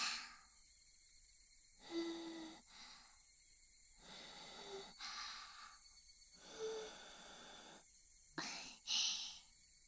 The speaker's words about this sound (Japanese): 暑いのでふうふうして差し上げますね。